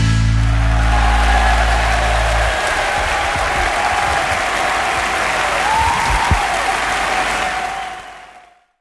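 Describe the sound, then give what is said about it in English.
Audience applause after a song at a live performance: dense, sustained clapping from a crowd that holds steady for several seconds. A low hum sits under the start, and the applause fades away at the end. “They're still clapping for him.”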